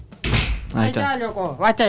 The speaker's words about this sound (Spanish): Ah, ¿por qué tengo que cerrar yo la puerta, loco?